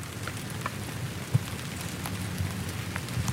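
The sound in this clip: Rain falls on huge trees as a steady, dense patter of drops, with scattered louder drips and one sharper knock standing out.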